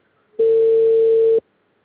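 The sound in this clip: A telephone tone plays while a call is being placed: one steady, mid-pitched, unbroken tone of about a second, clean and loud, starting and ending abruptly, with near silence around it and no voices.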